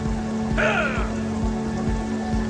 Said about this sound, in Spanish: Y los niños se alejaron bajo la lluvia, sin rumbo, sin dirección, hacia ninguna parte.